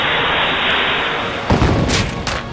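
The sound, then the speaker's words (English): An explosion from a tactical rocket launcher: a sudden deep, booming burst about halfway through rises out of a steady noisy bed, followed by rough rumbling and a couple of brighter crackling flares before it settles. “He has just produced a tactical rocket launcher and points it at Phil.”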